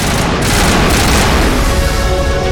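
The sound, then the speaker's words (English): Rapid gunfire bursts pound a turret in a shooting video game. The loud, dense, unbroken roar of fire and booms carries at a steady high level from start to finish. “takes about 5 bursts to get a turret down.”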